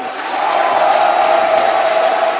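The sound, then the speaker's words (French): A lively audience cheers and shouts at a debate held at Félix Houphouët-Boigny University in Cocody, Abidjan, making a loud, continuous roar that holds steady without a pause. “bienvenue dans le débat africain qui est ce dimanche à l'université Félix Houphouët-Boigny à Cocody à Abidjan en Côte d'Ivoire devant un public particulièrement chaud.”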